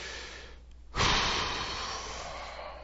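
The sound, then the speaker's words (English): Someone takes a deep breath: one sharp, noisy intake that starts abruptly partway through, then trails off into a softer, breathy fade against faint background hiss. “Okay, now let's take a deep breath, especially me.”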